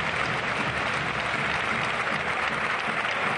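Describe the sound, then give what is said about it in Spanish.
Sevilla football supporters applaud at the final whistle after their team's loss to Real Sociedad, a dense, continuous wash of clapping that stays steady and even from start to end. “Esta es la reacción del público del Sevilla, según está el equipo, a pesar de haber perdido hoy contra la Real Sociedad cuando el árbitro ha pitado el final.”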